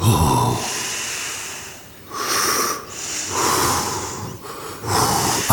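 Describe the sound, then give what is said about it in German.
Slow, calm breathing in and out, with several long, airy breaths following one another at an even pace, each breath softening into a brief pause before the next. “Atme ganz ruhig mit mir ein und aus.”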